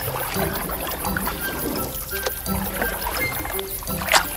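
Water laps and splashes continuously as a boat comes back carrying a wife and children, with a louder splash near the end.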